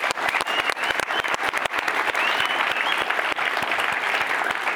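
Studio audience applause at a coaches' question-and-answer session in Utah: a dense, steady wash of many hands clapping, with sharp individual claps standing out throughout.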